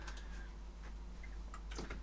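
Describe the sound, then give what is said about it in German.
Faint keyboard typing as a German sentence is entered, with a few scattered key clicks over a steady low hum. “ich tippe das mal mit euch ein”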